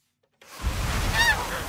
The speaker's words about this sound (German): Trotz der vielen Gänse gibt es gerade wenig Geschnatter am Hof der Familie Lehner.